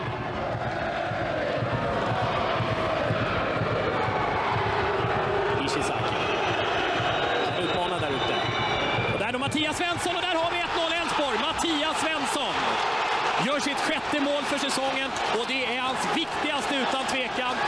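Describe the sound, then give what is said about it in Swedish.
A full stadium crowd at Olympia roars for a headed goal that makes it 1-0. The loud cheering is sustained, and an excited commentator shouts over it in the latter half. “Så här lät det när Mattias Svensson nickade in 1-0 inför ett fullsatt Olympia.”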